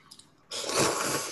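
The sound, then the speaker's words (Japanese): Instant Chicken Ramen noodles coated in raw egg yolk are slurped in one abrupt, sustained wet draw, preceded by a few faint small mouth sounds. “黄身を卵の生卵の黄身をこう麺に絡めていただきます。はい、うんうん、あの卵かけチキンラーメンですね、これ。”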